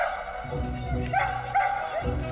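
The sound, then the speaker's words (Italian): Dogs barking in a film soundtrack: a few short, pitched barks and yips sound in quick succession over a dense, rumbling background. “un latrare di cani”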